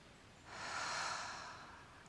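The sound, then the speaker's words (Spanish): A single soft, breathy exhale is blown onto a mirror to fog it after breathing in through the nose. The hiss swells, then fades, heard alone and faint. “ahora inhalo por nariz y al exhalar voy a empañar mi espejo.”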